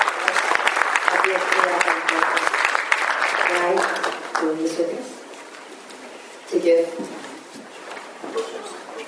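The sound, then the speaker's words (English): Applause from a conference audience after a panel discussion: dense, loud clapping for about four seconds that thins and fades out as a voice begins speaking. “Please give a round of applause again for our first”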